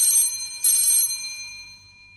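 A telephone rings for an incoming caller, giving two bright, metallic bursts of high ringing that then fade away, with no voices.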